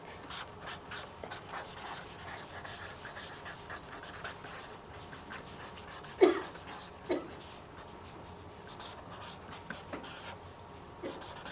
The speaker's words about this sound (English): And he wrote the following words. I'm going to write them now.